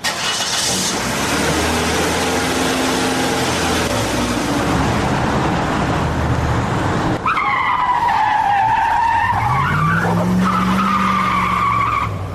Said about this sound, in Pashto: استاد موټر لک قرار چلاوه، ولې دومره بیړه لرې؟